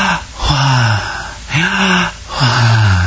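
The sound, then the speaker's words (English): A voice imitates a person's last dying breath with three loud, breathy, voiced exhalations. Each is low-pitched and sags slightly, with short gaps between them. “if you hear when somebody utters their last breath, it typically sounds like,”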